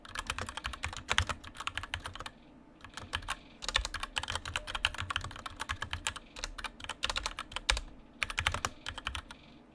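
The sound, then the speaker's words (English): Fast typing on a computer keyboard, with dense clusters of sharp keystroke clicks running in bursts and broken by a couple of short pauses. “Hang on. Gotta type.”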